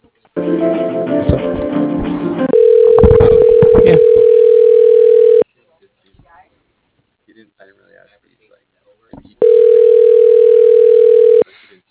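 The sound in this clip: Ringback tone on a phone line while a call is transferred to voicemail: two long, steady, mid-pitched tones separated by near-silence, with talk just before the first tone.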